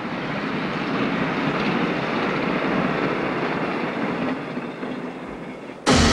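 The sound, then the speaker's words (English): A train travelling across a barren landscape gives a steady, broad rolling rumble that softens slightly as it recedes. A sudden louder burst of noise cuts in at the very end. “His train grows smaller as it heads across the lifeless landscape.”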